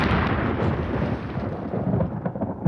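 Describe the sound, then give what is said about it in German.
Thunder from a storm at sea rolls as a loud, continuous deep rumble thick with crackling noise, holding steady throughout with no voices. “Seien Sie unbesorgt, Viktor. Gewitter auf See klingen immer schlimmer, als sie sind.”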